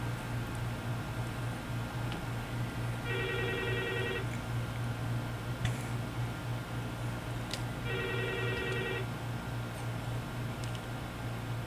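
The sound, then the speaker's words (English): An incoming call makes a telephone ring in two evenly spaced bursts of electronic trilling over a steady background hum. “The phone is ringing.”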